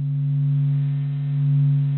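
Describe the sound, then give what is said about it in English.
Low, steady electronic hum of a sun sonification, the sun's movement waves translated into sound: sustained droning tones that swell and ease gently in loudness, with no voices. “What you're hearing right now is called sun sonification, or in plain speak, the sound of the sun.”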